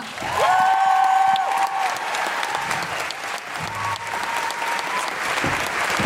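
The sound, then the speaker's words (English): An audience applauds to welcome speakers at an event, with dense continuous clapping for the whole stretch and a brief high whistle-like tone near the start. “Please put your hands together and join us in welcoming Monique and Jessica.”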